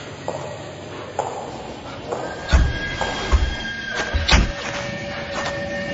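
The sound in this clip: A train approaches a station at speed with a rumbling clatter, steady high squealing tones and a few heavy thuds as it draws in.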